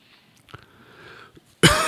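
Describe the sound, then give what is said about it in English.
A single harsh, loud cough bursts out at the end after a stretch of near quiet, from a person having repeated dry, unproductive coughing fits. “Excuse me for coughing.”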